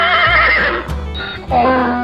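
A merchant's riding horse whinnies loudly, a strong, harmonic neigh with a wavering pitch that breaks into a second shaky burst.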